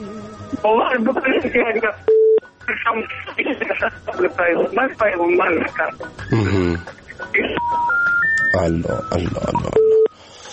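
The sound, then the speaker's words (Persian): A telephone call breaking off, with line tones: talk over the phone line, a brief steady tone, then a rising stepped series of tones and a final steady tone as the call drops. “خراب شد و قطع شد”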